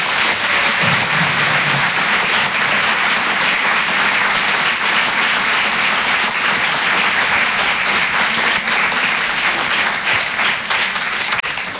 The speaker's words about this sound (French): Faites du bruit s'il vous plaît pour Malik Fares.